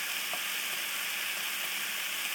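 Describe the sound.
A whole red pepper sizzles in a frying pan, giving a steady, bright hiss with a few faint pops and crackles. The sound holds an even level throughout, and no one speaks.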